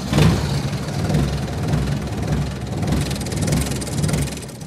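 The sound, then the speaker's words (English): A diesel engine runs on a short, squat four-person ride vehicle inside a Kentucky coal mine. It gives a steady, loud, low rumble with slight surging pulses and no talk. “Back in the mine, we board a four-person diesel ride. It's short and squatty to navigate some low roof areas”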